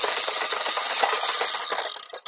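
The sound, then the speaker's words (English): A prize wheel spins in a football-themed game, giving a dense, steady clicking rattle that slows near the end into a few separate, fading ticks. “You ready for the first spin? Go. All right, here we go. First spin of the wheel.”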